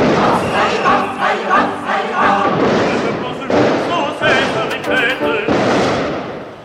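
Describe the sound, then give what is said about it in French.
A crowd of students charging during a protest: loud massed shouting and yelling that surges in repeated waves, dense and continuous for the whole stretch. “Voici les étudiants qui chargent maintenant. Reculez.”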